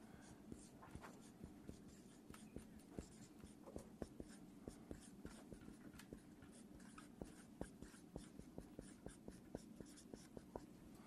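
Writing on a board: faint, rapid scratchy strokes tap and drag in a steady, busy rhythm, with many short marks and no talking.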